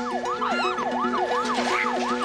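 A police car siren wails in a rapid, steady cycle of rising and falling pitch, about six sweeps in quick succession, loud and continuous with no voices.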